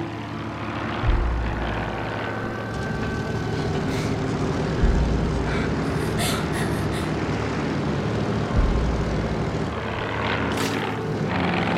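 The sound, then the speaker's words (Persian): Aircraft engine droning in flight, a loud, continuous roar with steady tonal hum, broken by three brief low thumps spaced a few seconds apart. “خدای من، خدای من، لئونارد داریم پرواز میکنیم.”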